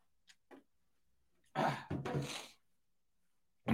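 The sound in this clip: Throat clearing in two harsh, rasping bursts close together, preceded by a couple of faint small mouth sounds and followed by a short pause.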